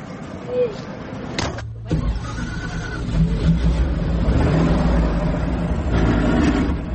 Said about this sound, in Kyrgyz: Ал үчүн атайын ушундай союз кезинен бери каттап жүргөн эски автобустар каттамды аткарат. Анда эмесе кеттик.